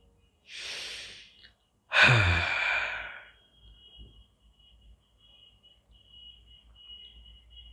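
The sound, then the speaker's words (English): A deep breath: a soft drawn-in inhale, then a louder, longer sighing exhale, followed by near silence. “let's take a deep breath and start.”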